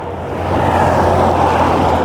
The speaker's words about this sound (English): Okay, I'm at the end of the street. You can probably hear the traffic now.